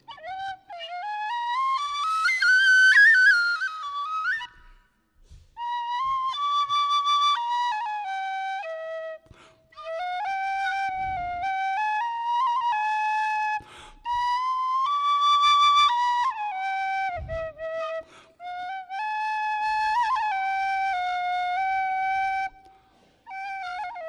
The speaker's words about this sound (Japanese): アイルランドという国で小学生もみんな吹けるようになってます。アリッシュのペニーホイッスル、ワンペニーで買えるっていう、本当に後ろに穴もないリコーダーより単純な笛なんですけどもね